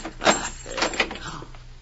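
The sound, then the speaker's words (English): A door lock being opened: a few faint rattling clicks and knocks of metal and wood, spread unevenly over the moment. “This door lock.”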